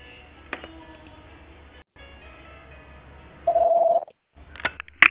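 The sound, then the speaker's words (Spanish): A voicemail beep sounds once on a phone line: a loud, steady mid-pitched electronic tone lasting under half a second, after faint line noise and followed by brief crackles. “El usuario no puede recibir llamadas en este momento. Por favor, deje un mensaje en la casilla de voz después de la señal.”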